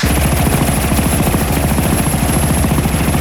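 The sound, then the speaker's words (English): A police helicopter hovering over an auto business gives a loud, steady thudding of rotor blades with a constant engine whine, unbroken throughout and with no voices. “The police chopper casts a shadow as it hovers over Turgeon Autos.”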